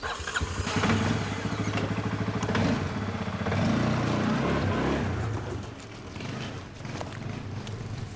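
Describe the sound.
A tractor engine runs with a loud, steady rumble and a rhythmic chugging pulse. It dips briefly near the end, then keeps running.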